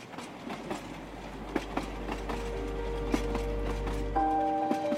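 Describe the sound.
Train carriages carrying Hungarian refugees roll on rails with a steady low rumble and a rhythmic clickety-clack of wheels. Thin, sustained tonal squeals join in during the second half.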